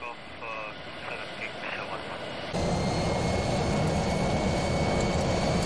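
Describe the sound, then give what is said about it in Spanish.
Jet engine roar of a private Airbus A319 taking off, a steady hum with faint voices that jumps abruptly into a loud, dense, continuous roar holding to the end. “Se cierran las puertas del Airbus 319 privado y el whisky de Shackleton recibe permiso para despegar.”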